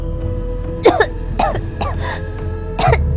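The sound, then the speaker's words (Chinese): Someone chokes on a mouthful of food stuck in the throat, giving several harsh, strained coughs and throat-clearing bursts spread across the moment, with no talk. “一口食物硬是卡在喉咙口，胀得我满脸通红。我抖着手指向魏凌风，只呛了许久，才挤出一句话”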